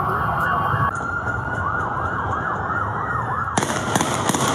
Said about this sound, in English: Oh, they shooting now. They shooting at the police.